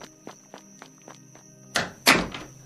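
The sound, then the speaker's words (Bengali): Soft knocking on a door: a few faint, light taps at first, then two louder, sharper thumps near the end. “রাত তখন প্রায় 8টা বাজে, দরজায় একটা শান্ত টোকা পড়ল। আমি ছুটে গিয়ে খুললাম দরজাটা।”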